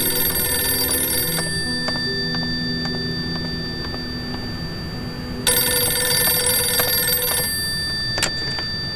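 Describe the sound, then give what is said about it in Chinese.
Telephone ringing as a call comes in, sounding as two bright, steady ring bursts: one at the start and another a few seconds later, with a low hum underneath. “我接个电话。”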